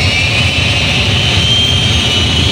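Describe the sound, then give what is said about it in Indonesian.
Airplane jet engines roaring on a short flight between Jakarta and Jambi, Indonesia: a loud, steady, unbroken drone with a low rumble and a constant hiss, unchanging from start to finish. “Terbang dari Bandara Soekarno-Hatta Jakarta menuju Bandara Sultan Taha Jambi hanya sekitar 1 jam.”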